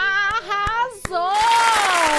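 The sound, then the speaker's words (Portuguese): A few sharp hand claps sound for a listener, struck under a high, tonal voice that carries on over them. “palmas pra ele”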